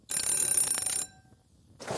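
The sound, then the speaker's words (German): A doorbell ringing at the front door of a home: a rapid, trilling electric ring that buzzes continuously for about a second, then stops. “Da klingelt es an der Tür.”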